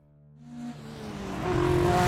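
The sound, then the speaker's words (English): A Mercedes car engine speeds through the night, its steady, whining drone rising and growing louder over two seconds as the car accelerates. “My Mercedes sped east through the darkness.”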